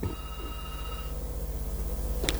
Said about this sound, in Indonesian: tapi telepon nih udah antri banget nih. Kita angkat dulu telepon yang ada.